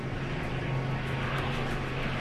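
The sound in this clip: A propeller aircraft at max power while aborting a landing, heard as a steady, loud engine drone with a deep low hum and an even roar that holds throughout.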